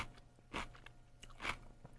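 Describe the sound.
Someone biting and chewing a pickle, with two soft, wet crunches standing out above quieter chewing noises and a faint low hum.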